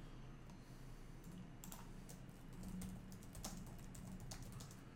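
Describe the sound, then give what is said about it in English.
Typing on a computer keyboard while someone looks something up, many quick key clicks in an uneven run, faint against a steady background hiss, with no talk heard. “I'm trying to see how I can type it so it'll just pull up.”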